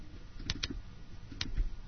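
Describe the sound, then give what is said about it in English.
A few sharp, separate keystrokes on a computer keyboard as a short greeting is typed into a message editor, quiet clicks in an irregular rhythm with no talking. “Compose message, rich text editor. And I can now just type, hello.”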